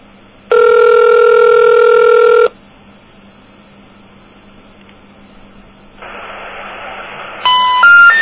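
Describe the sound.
A telephone ringback tone sounds on an outgoing call to a toll-free 1-800 number: one long, steady buzzing ring, then a hissing line and a few short, high beeps at the end.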